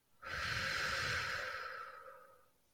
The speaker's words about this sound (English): take a deep inhale in and a long exhale out